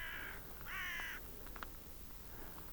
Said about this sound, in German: Ein Rabe rabt.